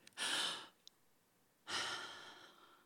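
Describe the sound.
A deep breath during a talk about gratitude: two broad, breathy rushes of air separated by a pause. The first is short and full; the second is longer and slowly fades away. No voices are heard.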